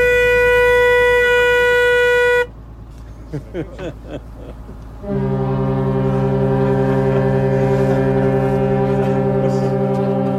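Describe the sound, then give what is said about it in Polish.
A ship's thin siren horn sounds in two long, steady, loud blasts, the second deeper and fuller, separated by a few seconds of softer, scattered noises. “Dawaj, dawaj naszą cienką syrenkę.”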